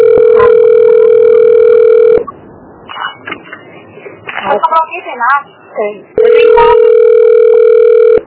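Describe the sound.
A telephone dial tone hums as a steady, loud, unbroken tone for about two seconds. It gives way to a stretch of irregular sounds and a voice, then returns just as steady at the end.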